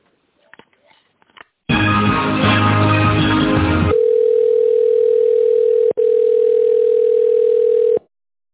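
A telephone line tone plays while a call is being transferred: a burst of dense, noisy sound, then a loud, steady single-pitch tone with one brief break before it cuts off.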